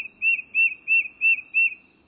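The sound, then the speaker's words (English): A tufted titmouse, an eastern woodland bird, sings its rhythmic whistled song: five evenly spaced, clear, high phrases in a steady beat, heard alone. “This rhythmic whistled song is a quintessential sound of woodlands in the eastern U.S. But few birds are more ready to visit your backyard than its singer, the tufted titmouse.”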